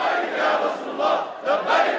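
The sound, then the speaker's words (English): Hezbollah supporters cheer and chant, loud massed shouting that surges and dips in rhythmic waves of many voices. “Hezbollah supporters cheer and chant as their leader Hassan Nasrallah takes matters into his own hands.”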